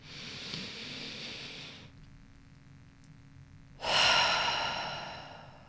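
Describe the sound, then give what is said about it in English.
Deep breaths in and out during a guided breathing exercise: a steady, airy breath is followed by a quiet pause, then a louder, rushing breath swells and slowly tapers off. “Let's go ahead and take a deep breath in.”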